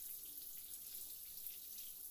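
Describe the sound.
Shower water runs in a faint, steady hiss and splatter while a person adjusts its temperature, with no voices and no clear change in the flow.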